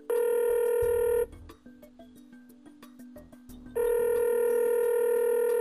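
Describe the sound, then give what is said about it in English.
An outgoing phone call rings: two long, bright electronic ring bursts separated by a pause filled with faint low rustling. “So let's give him a call.”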